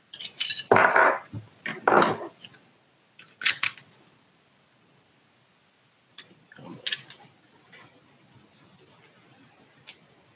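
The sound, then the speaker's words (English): Metallic clacks, snaps and rattles come from a handgun being taken apart by hand. Several sharp bursts come close together at first, then quieter scattered clicks follow after a pause. “I'll tear my gun apart real quick.”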